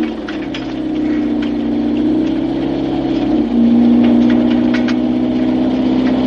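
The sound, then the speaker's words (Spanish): A black car's engine drones steadily as it drives up behind a young woman pedalling along a rural path. The low hum runs evenly and shifts slightly in pitch midway before continuing. “Tras ella aparece el coche negro de la viuda del hombre extraño.”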